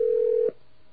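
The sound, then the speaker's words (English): A steady telephone tone as a call is placed to a cell phone: one continuous mid-pitched tone holds evenly for about half a second, then cuts off abruptly into near silence. “we are now hopefully ringing Ron on his cell phone someplace”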